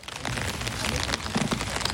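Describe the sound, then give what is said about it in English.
Rain falls steadily across a huge cemetery in Magdeburg, a dense, even hiss of drops striking surfaces throughout, with no voices. “It's raining”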